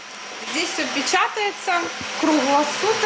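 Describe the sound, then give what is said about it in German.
3D printers running nonstop to print silicone facial prostheses such as ears, noses and eyes. Shifting, stepwise motor tones whine over a steady fan-like hiss. “Alle Printer sind im Dauerbetrieb, denn ihre Produkte werden für die Patienten dringend gebraucht.”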